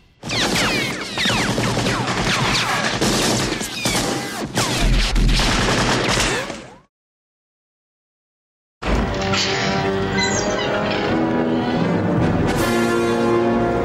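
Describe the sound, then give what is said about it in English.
Gunfire from a film shootout in a burning bar, a dense, loud barrage of rapid shots that keeps going for about seven seconds, then cuts abruptly to silence. “the bar catches on fire. There's the shootout.”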